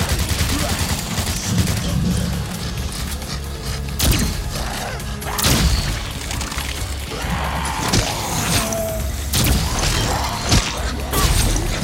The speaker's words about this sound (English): there's a guy shooting stuff at me. I killed him. Shooting things from far away.